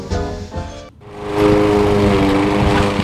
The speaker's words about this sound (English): Cutting the lawn for the first time always signals the end of the beginning of spring.